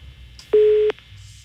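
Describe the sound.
A telephone ring tone during an on-air phone call: one steady, mid-pitched beep lasting under half a second over faint line hiss.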